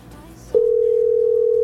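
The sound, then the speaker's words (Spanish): Telephone ringing on an outgoing call to a radio listener: after a quiet stretch, a single steady, loud tone starts abruptly and holds unbroken to the end. “Dos timbradas más y si no, marcamos a otro oyente.”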